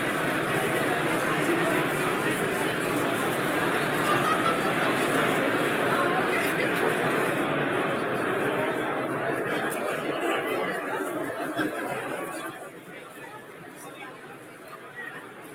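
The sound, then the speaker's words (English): Steady crowd chatter fills a trading card Trade Night room, many voices babbling together with occasional laughter, holding level before easing a little toward the end. “this is me standing in the middle of the Trade Night room and just doing a 360 with the camera. So there's a little bit of sound, and it's only 34 seconds.”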